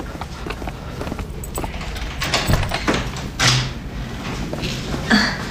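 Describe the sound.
Clattering and clunking as a key unlocks the door of a long-unused broadcast room and the door opens, with a few louder knocks and scrapes over steady low background noise.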